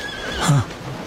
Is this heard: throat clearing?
no